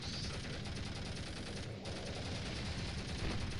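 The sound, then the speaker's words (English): Video game gunfire, fired at heavily armored enemies: a dense, continuous crackle of rapid shots, kept low and steady throughout, with no clearly separated individual bursts. “Got some heavy armors up ahead. Shooting some shots at them.”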